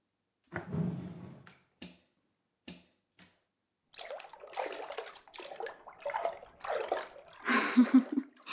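Hot bathwater splashes as a person climbs into a bathtub. A few short, separate splashes come first, followed by a longer stretch of irregular sloshing and dripping.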